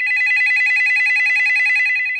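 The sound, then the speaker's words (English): A telephone ringing with a continuous warbling electronic ring, loud and steady for the whole two seconds. “The phone rings.”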